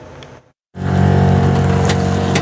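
Loud, steady engine rumble from an off-road concept vehicle fitted with a custom suspension system, starting after a brief silence that follows a quieter stretch of noise.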